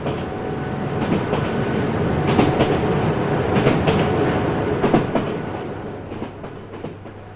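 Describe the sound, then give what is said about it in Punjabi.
A train runs on its rails as it slowly approaches a station, a steady rumbling roar with clickety-clack wheel noise that eases off and quietens toward the end. “ਗੱਡੀ ਹੌਲੀ ਹੌਲੀ station ਵੱਲ ਨੂੰ ਵੱਧ ਰਹੀ ਸੀ, ਪਰ ਪਤਾ ਨਹੀਂ ਕਿਉਂ ਮੇਰੇ ਮਨ ਦੇ ਵਿੱਚ ਅਜੇ ਵੀ ਇੱਕ ਸਵਾਲ ਸੀ। ਪਟੜੀਆਂ ਦੇ ਉੱਤੇ ਚੱਲ ਰਹੀ ਗੱਡੀ ਦੀ ਆਵਾਜ਼”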